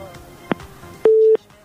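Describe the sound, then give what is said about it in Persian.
A telephone tone after a dropped call: a single steady, mid-pitched beep of about a third of a second, preceded by a faint hum and a brief click, with another short burst at the end. “تماسشان فکر میکنم که قطع شد بدون از یک صحبت کنن.”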